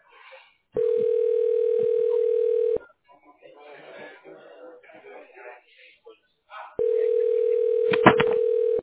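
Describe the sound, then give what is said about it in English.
Steady telephone dial tone on a phone line, heard in two long stretches separated by a few seconds of muffled noise, with a short burst of extra tones near the end. “Dialing.”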